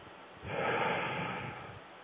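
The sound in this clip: One deep inhale from a person: a long, airy breath that swells quickly, holds and slowly fades, alone without talk.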